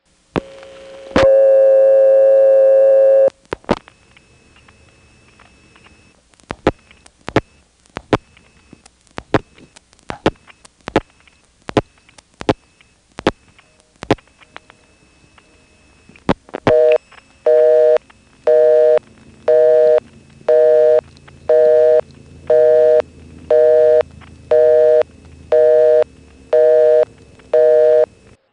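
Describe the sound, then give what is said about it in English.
A telephone busy signal sounds on a toll-restricted Carolina Telephone line after a 1-plus-ten-digit call. A steady tone and a string of sharp clicks come first, then many rapid on-off tone bursts repeat over a faint hum of trunk noise. “And notice how when you get the busy, the trunk noise is still there.”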